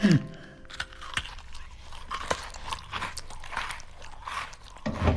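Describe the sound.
Crunching bites into a biscuit, with a few sharp crackling snaps spread through the chewing. A brief voice is heard at the start, and louder crunching returns at the end.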